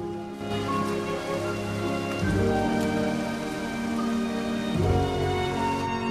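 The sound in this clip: Pouring rain falls by the side of a road, a steady dense hiss that runs through the whole clip, with sustained low tones beneath it.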